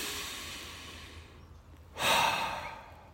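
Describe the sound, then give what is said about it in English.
A person draws one long, deep breath, a single airy rush that swells after a hushed stretch and holds steady for about a second. “Keep reminding yourself to take longer and deeper breaths. Let me do one real quick right now.”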